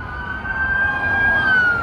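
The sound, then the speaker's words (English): Police convoy sirens from around 20 sheriff's, state patrol and city police vehicles passing a county government building in the afternoon: one loud, sustained high wailing tone that holds nearly steady and dips slightly at the end, with no talk. “Around 20 vehicles from the Sheriff's Office, State Patrol, and Grand Rapids Police Department drove past the county government building Tuesday afternoon.”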